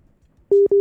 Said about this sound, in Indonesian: Terputus sepertinya ya. Kita coba terhubung kembali.